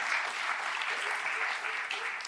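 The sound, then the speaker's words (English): Audience applause at a church service: steady, even clapping from many hands, held at a moderate level throughout the short stretch with no talk over it. “That's worth clapping about right there. Go ahead and clap about it.”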